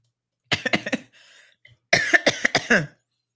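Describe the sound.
A fit of loud, hacking coughs in two bursts, several sharp coughs, a short pause with a faint wheezy breath, then another run of harsh coughs, with no talk.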